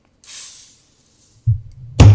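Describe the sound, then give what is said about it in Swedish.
A short fizzing hiss as a small, chubby Belgian-style beer bottle is opened, fading within half a second. A couple of low thumps follow after a pause. “Men jag öppnar den här ölen nu. Kör.”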